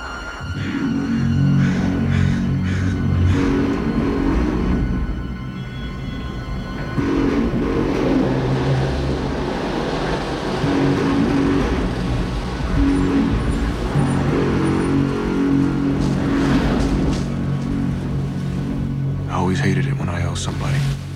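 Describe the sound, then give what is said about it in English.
A car drives away, its engine and road noise forming a steady low rumble that holds with little change for about twenty seconds. “Smith nods and they drive to Jericho.”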